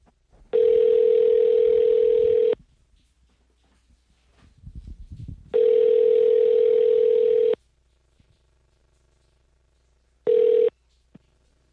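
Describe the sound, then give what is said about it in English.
A telephone call tone sounds while placing a call: a steady, mid-pitched buzzing tone in two long bursts of about two seconds, separated by quiet gaps, then a brief third burst at the end. “We're calling Cuomo. Okay. We're going to call Sarah in Toronto.”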